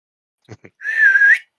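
A single whistle used as a signal to others, heard as one steady, sustained high tone that follows two brief soft sounds.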